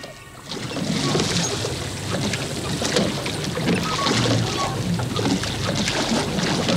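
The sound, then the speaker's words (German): Water washes and splashes as oars row a boat downstream on the Mississippi, a steady, dense rushing sound with no distinct strokes standing out. “Können wir also aufhören mit Rudern? Ja, Boys, hört auf.”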